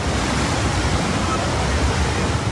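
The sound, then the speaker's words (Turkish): Floodwater covering the Ayazağa road in Istanbul after heavy rain makes a loud, steady, unbroken rushing roar of water with no clear pauses. “Burası Ayazağ yolu. Normal şartlarda araçların geçtiği bir yol. Ancak şiddetli yağışın etkisiyle adeta göle dönmüş durumda.”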